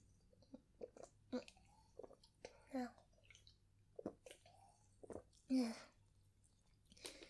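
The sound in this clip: Wet gulping swallows from someone downing a drink in big mouthfuls, an irregular series of short squishy gulps and swallows with quiet pauses between them.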